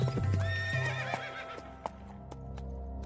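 A horse sound effect in a Bengali audio drama: a high, wavering neigh lasting about a second, followed by a few sharp hoof clops at a faint level.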